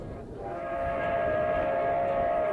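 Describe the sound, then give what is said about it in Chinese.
An express train roars through a county-town station at night without stopping. Its loud, sustained rumble carries a steady tonal whine, building slightly over the first second and then holding at full strength. “县城车站夜色笼罩，特快列车在这里根本不停，呼啸而过。”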